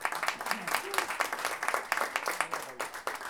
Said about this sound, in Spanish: Así que un aplauso para los invitados colombianos.